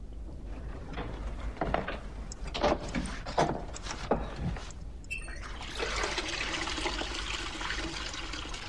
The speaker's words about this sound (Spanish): ¿Le importaría abrir el agua caliente?